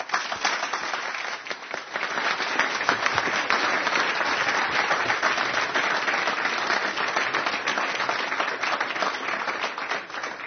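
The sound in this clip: Audience applause welcoming a speaker to the stage: a dense, even clatter of many hands clapping, sustained at a steady level throughout with no voices.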